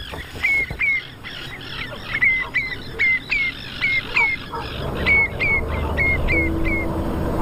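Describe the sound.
A breeding pair of terns calls over a highland wetland in summer while nesting, giving many short, sharp, high-pitched squawking chirps in a quick, fairly regular series, each call separate and clear.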